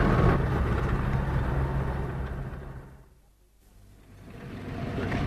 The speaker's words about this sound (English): I've got the wheel in my hand, jumping around every now and again, but driving uphill in second gear.